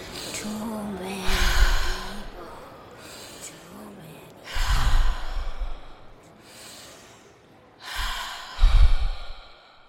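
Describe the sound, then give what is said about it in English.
Three deep breaths come one after another in an even, slow rhythm, each a loud, rushing inhale and exhale with a few seconds of quiet between them. “All you need to do is clear your mind and let's take three deep breaths.”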